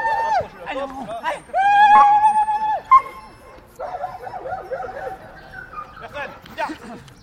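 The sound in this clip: Police dog vocalizing during a training exercise on a grassy field: high, wavering whines and whimpers mixed with sharp yips and a few barks, loud and irregular throughout.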